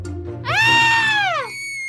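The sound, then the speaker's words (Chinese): One loud, high scream of fright, about a second long, opening sharply, holding steady and sliding down in pitch as it ends. “凯斯尖叫出声，这实在是太恐怖了。”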